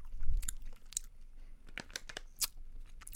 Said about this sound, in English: I'm just gonna grab one Coke bottle and I'm just gonna eat it.